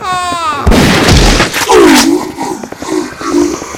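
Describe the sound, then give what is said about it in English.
A sci-fi sonic shotgun fired at a crowd of zombies gives a loud, booming blast after a short tonal whine, followed by a second roaring burst. Fainter tonal, voice-like sounds follow. “my sonic shotgun has got the hungry masses at bay.”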